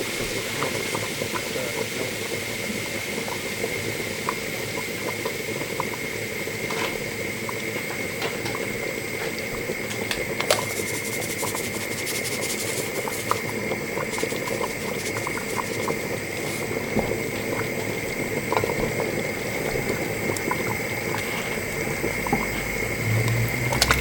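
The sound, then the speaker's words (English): A pot of food simmers on the stove, with a steady, dense bubbling and popping that carries on evenly throughout. “This, it's going to have to simmer away for about 40 minutes.”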